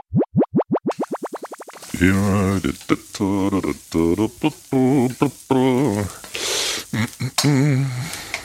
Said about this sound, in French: Le wesh, ça se fait frire, tu savais pas ? Bah non. Eh ben écoute la recette, La recette du wesh.